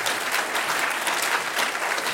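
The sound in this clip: Applause from a church audience, dense steady clapping that stays even and fairly loud from start to finish, with no talk.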